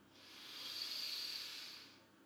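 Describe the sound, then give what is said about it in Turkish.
A single long breath during a guided breathing exercise, drawn in through the nose and let out through the mouth: a soft, airy hiss that swells and then fades, with no talk. “Al iki burun deliğinden. Ve ağızdan boşalt nefesi.”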